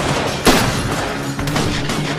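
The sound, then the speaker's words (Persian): Sustained gunfire in a firefight with British soldiers in front of a building: a loud, steady crackle of shots, with a sharper burst near the start and another later on. “یان و بقیه هم تیراندازی میکنن.”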